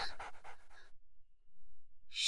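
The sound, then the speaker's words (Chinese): Rapid panting of a wolfdog: a quick, rhythmic run of breathy huffs lasting under a second, followed by quiet. “这是狼狗，你放它放进来做什么？”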